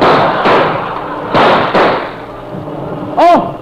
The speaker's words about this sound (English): Oh, they shot me.